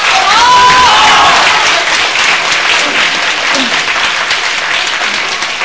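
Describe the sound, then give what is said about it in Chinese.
Audience applause at a Chinese crosstalk comedy show. Loud, continuous clapping with a brief shout near the start, tapering off slightly over about five seconds. “听见观众的掌声，看见观众的鲜花”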